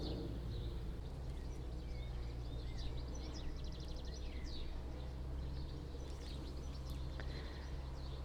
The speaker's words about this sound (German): Und Sie hören jetzt ein paar Vögel im Hintergrund.